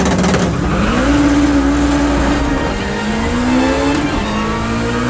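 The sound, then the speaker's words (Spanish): A car engine revs after stalling, with a steady mid-pitched drone whose tones climb twice. It stays loud throughout, with no talking. “Hostia, que se me han calado. Espera un momento que arranque. Hostia, este puto motor.”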